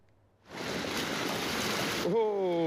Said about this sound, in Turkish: Zonguldak'ta şiddetli yağmur nedeniyle dere taştı. Taşkın sonucu sanayi sitesini su bastı.